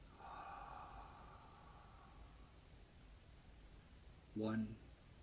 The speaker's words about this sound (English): And let's take a deep breath in.